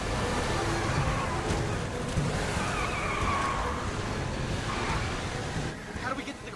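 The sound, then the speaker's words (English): Roaring engine and screeching tires of a van speeding away and weaving between fallen debris, a loud, continuous rush of vehicle noise that drops off slightly at the very end. “With Nelson driving, the van speeds away, maneuvering between fallen debris.”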